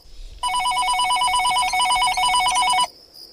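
Electronic telephone ring: one warbling trill that starts abruptly, holds steady and loud for about two and a half seconds, then cuts off into near silence.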